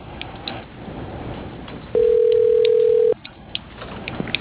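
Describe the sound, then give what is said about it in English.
A single telephone ringing tone plays as a call is transferred. It is one steady, pitched beep of about a second, clearly louder than the faint background noise around it. “If you are calling after hours, please leave us a detailed message. Your call is being transferred.”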